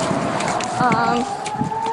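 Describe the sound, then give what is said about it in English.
An air raid siren wails in a steady, slowly rising tone through the whole stretch, loud beneath a voice speaking over it. “The sirens start.”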